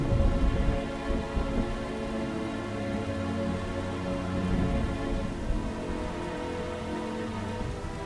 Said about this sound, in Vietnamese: Đêm đó mưa to gió lớn và Kim vẫn không dậy.